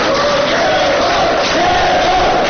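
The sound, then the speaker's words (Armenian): A crowd of supporters chanting in unison to greet an opposition activist, held in detention for about five months, at his first court hearing; the massed voices are loud and continuous, with a sustained, slightly wavering chant. “Շուրջ 5 ամիս անազատության մեջ գտնվող Գևորգ Սաֆարյանին աջակիցները ծափահարություններով ու վանկարկումներով դիմավորեցին։”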